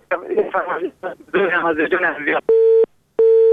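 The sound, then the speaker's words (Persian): Telephone disconnect tone after a call is cut off: a caller's voice on the phone line, then two loud, steady electronic beeps separated by a short gap. “متاسفانه تماس برادر ما قطع شد و ما نفهمیدیم که کدام آهنگ فرمایش دادن. ما گفتم از اول که صدایشان قطع وصل می شد و درست صدایشان نداشتیم.”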